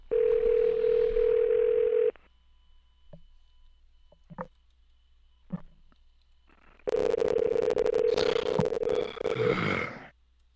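Steady electronic telephone tone on a line held for the next representative: a loud, unbroken hum for about two seconds, a quiet stretch with a few faint clicks, then the same tone returning for several seconds.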